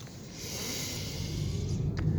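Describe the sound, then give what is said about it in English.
A slow inhale during a guided meditation: a soft, airy breath that swells gradually over about two seconds, heard alone without any talk. “Breathe in.”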